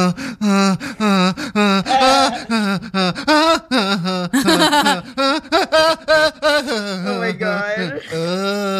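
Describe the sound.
A person imitates sexual moaning with a loud run of voiced groans, gasps and whimpers. The pitch wavers and the sounds are broken by short pauses.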